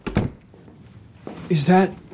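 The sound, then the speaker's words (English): A motel room door shuts with a short, dull thud, and a voice speaks briefly soon after. “He enters the motel room. She closes the door.”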